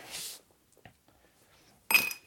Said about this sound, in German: Ich hau das jetzt voll, das Glas, und dann. Die Kandierten.